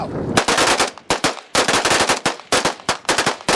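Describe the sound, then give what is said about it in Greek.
Automatic gunfire from about 15 rebels emptying their weapons in a salute at a ceremony on Saur-Mogila height in Donetsk, honouring victims of fascism: loud bursts of rapid shots broken by brief pauses, with no talk. “Περίπου 15 αντάρτες αδειάζουν μπροστά μας τα όπλα τους σε ένα χαιρετισμό για τα θύματα του φασισμού.”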